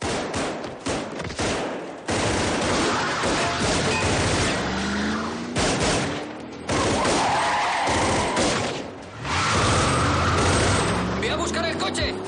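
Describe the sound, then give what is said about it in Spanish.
Film shootout from the 1999 action thriller The Corruptor, with heavy gunfire as two partners fire from behind a car at an escaping enemy vehicle. Many sharp shots come in loud, dense bursts, broken by a few brief pauses. “Nick y Danny, ocultos tras un coche, siguen disparando sin cesar hasta que el vehículo de sus adversarios escapa.”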